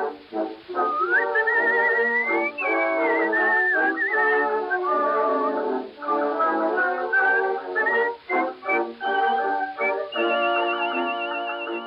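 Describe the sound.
Artistic whistling from an original 1922 recording: a loud, continuous melody that glides and warbles between sustained notes, over steady tonal backing, with only brief pauses near the end.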